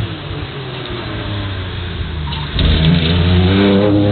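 Porsche GT race car engine revving at a motorsport event, a loud throaty engine drone that climbs in pitch and grows louder after about two and a half seconds.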